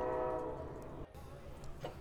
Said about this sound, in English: We have a choo-choo coming by. A choo-choo train. A choo-choo. Damn, that's loud.